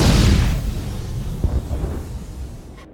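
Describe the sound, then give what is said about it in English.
A huge explosion in a town, like a volcanic eruption, opens with a loud, deep boom that fades into a long low rumble, with a faint thump partway through. “Holy Mary, what was that? Came from the direction of City Hall. Look at that glow around Town Square. I've heard that sound one other time. Mount St. Helens,”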